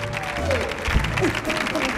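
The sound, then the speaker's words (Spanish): Audience applause welcoming actor David Hasselhoff onto a programme in Spain: a short, loud burst of dense clapping with voices rising over it. “recibamos también con un fortísimo aplauso a David Hasselhoff, que también está con nosotros.”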